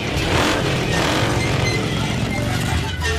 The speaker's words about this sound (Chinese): 踩三下油门，